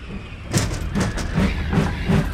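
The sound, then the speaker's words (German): A train passes with a loud, steady rumble and a regular rhythmic clatter. The beats repeat at an even pace over broad hiss and noise, and no voices are heard. “Um Gottes Willen, Kurzi, der Zug!”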